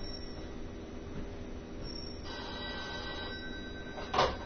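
A telephone rings faintly over a steady low hiss, its thin electronic tone holding through the middle and ending in a brief sharper burst near the close.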